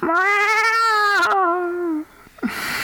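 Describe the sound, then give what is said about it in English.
A human voice imitates a cat's meow in one long, drawn-out, steady nasal tone of about two seconds, loud and alone, followed by a brief faint sound. “Earth cultures have a lot of different ways of representing animal sounds. That's one particular sound for a cat.”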